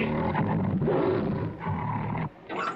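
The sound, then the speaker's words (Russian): Tigers crowded at the bars of their cage roar, giving out a loud, deep, continuous growling roar that drops off briefly near the end and then starts again. “Тигры сгрудились у решетки.”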